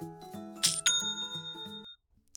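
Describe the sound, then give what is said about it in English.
Online store chime for a new sale: two bright, bell-like rings over a short run of stepped electronic tones, fairly faint and alone, cutting off after about two seconds. “If you run an online business, then you probably appreciate that sound too. It's the sound of another sale on Shopify,”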